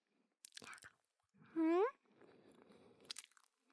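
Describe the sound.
Chewing of a white, sticky, slightly sweet rice cake (nian gao), with soft, faint mouth noises. A brief hummed tone and a few quiet voice sounds come through around the chewing.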